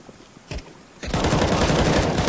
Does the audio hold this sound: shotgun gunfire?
yes